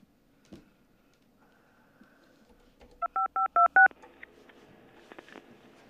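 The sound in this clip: A telephone number is dialed on a keypad, heard as five short, evenly spaced DTMF tones in quick succession, with faint scattered noises before and after.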